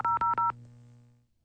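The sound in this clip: Touch-tone telephone dialing as a radio listener is called: three quick, even beeps in a row, followed by a low tone that fades away.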